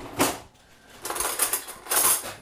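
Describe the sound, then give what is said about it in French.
Knives, forks and spoons clink as they are set on a table with a green tablecloth for a dessert, in a few light metallic bursts separated by short pauses. “Couteau fourchette? Couteau, oui, après fourchette. Cuillère ou. Oui, voilà, cuillère, un peu ce qu'on veut, c'est un dessert.”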